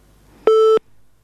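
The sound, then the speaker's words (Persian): A disconnect tone sounds after a listener's call to a radio phone-in program drops. It is a single steady electronic beep, loud and brief at about a third of a second, set against near silence. “بلی، خب تماس شنوندی ما قطع شد”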